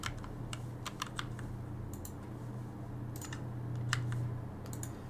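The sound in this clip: Typing on a computer keyboard: scattered bursts of quick, crisp keystroke clicks, fairly faint over a steady low hum.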